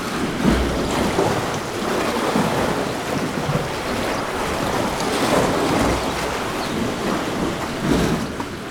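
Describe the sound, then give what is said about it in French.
Seawater surges into a rock cavity at the foot of cliffs, making a loud, steady roaring wash with gentle recurring swells. No voices are heard. “C'est en fait une cavité où l'eau de mer s'engouffre, produisant”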